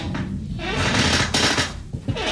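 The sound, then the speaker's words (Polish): An old wooden chair creaks in a dry wooden house on the prairie, giving a few dry, rasping creaks and scrapes of fairly steady loudness. “Co tak trzeszczy, ktoś zapyta co jakiś czas. No przecież na prerii mieszkam, to jest wszystko suche. To moje stare krzesło trzeszczy.”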